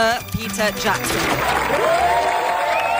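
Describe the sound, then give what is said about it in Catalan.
A standing ovation of applause for Peter Jackson in the main auditorium of the Sitges film festival builds from a spoken introduction into steady, thick clapping from the crowd. “El públic de Sitges ha dedicat a Peter Jackson diversos minuts d'aplaudiments dempeus a l'auditori principal”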